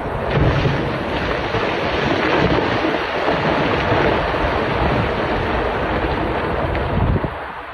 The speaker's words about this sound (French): C'est le son de blocs de pierre de plusieurs tonnes qui dévalent une montagne pour s'écraser et exploser quelques centaines de mètres plus bas.